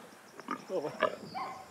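A sow with piglets gives a few short, rough grunts and snorts, fairly faint, over a quiet background.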